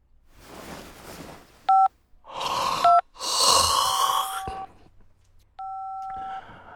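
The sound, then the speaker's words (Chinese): Telephone keypad dialing tones: a few short dual-pitch beeps, spaced unevenly, alternate with loud breathy bursts of noise. No talk is heard. “马图文打着哈欠，晕着头，大着舌头给罗任打电话。”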